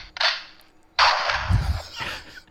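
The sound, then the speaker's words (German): A gunshot sound effect from a handheld sound box: two sharp bangs, each trailing off in a hissing tail, the second longer and carrying a low rumble. “Da kann man richtig viel Spaß mit haben. Der Gnadenschuss, wenn der Song so richtig schlecht ist.”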